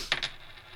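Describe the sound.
An unevenly weighted 2 euro commemorative coin lands after a toss, giving brief, bright metallic clinks in quick succession before quiet.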